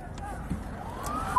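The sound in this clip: Ambulance siren at an emergency scene, a faint wail rising in pitch beneath a noisy, busy background, then settling into a steady high tone at the very end.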